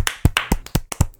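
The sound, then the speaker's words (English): Hand claps for a round of applause celebrating a comedy film's tournament win: a quick, fairly even run of about seven sharp, loud claps with no voices. “A round of applause for Little Miss Sunshine, everybody.”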